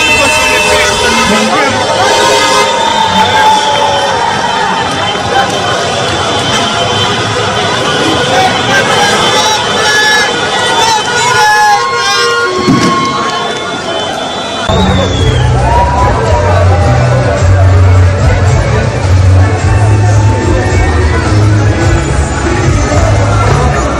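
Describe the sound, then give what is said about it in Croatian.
A street celebration in the capital after a Bosnia and Herzegovina win: loud crowd hubbub mixes with passing vehicles, and a heavier low engine drone joins midway while the noisy, busy atmosphere continues throughout. “Duge kolone vozila, sirene, vatromet, ali i navijačke pjesme odjekivale su ulicama glavnog grada. Donosimo dio atmosfere.”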